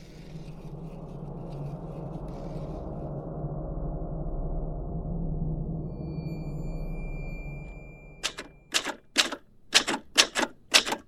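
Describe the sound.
Typewriter typing up a resignation letter: a rapid run of sharp keystrokes near the end, after a long, low droning hum.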